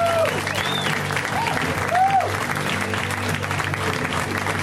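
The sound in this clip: Steady audience applause greets the final comic of a comedy show, a dense, even wash of clapping that holds at one level throughout.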